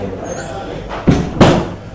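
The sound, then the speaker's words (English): Chairs being moved and rearranged during a Talmud study class: two short, heavy thumps about a third of a second apart, the second slightly stronger, over a low background murmur. “Okay, move around some of the chairs. Yeah, got to rearrange.”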